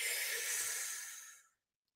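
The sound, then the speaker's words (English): A single deep breath, a steady airy rush lasting about a second and a half that tapers off into silence, quiet and heard alone. “Take a deep breath”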